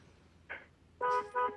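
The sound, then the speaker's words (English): A Ford F-150 pickup's horn sounds in two honks, a longer blast and then a shorter one, each a steady, fairly faint tone. “All right, give me another honk.”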